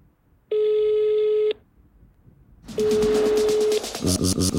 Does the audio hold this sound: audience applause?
no